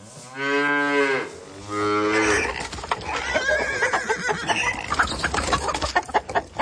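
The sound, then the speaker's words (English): Farm animals call out, opening with two long, low lowing moos from cattle, followed by a dense, busy jumble of shorter animal cries and squawks. “When most people hear animals talking, it sounds something like this.”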